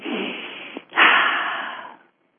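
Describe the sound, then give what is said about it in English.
Deep breaths taken slowly: an airy, hissing breath of almost a second, a brief pause, then a louder, longer breath that gradually fades away, with no talking. “let's take a couple of deep breaths”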